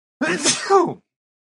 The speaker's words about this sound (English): I'm going to sneeze.